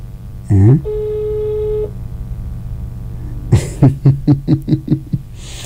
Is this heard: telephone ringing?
yes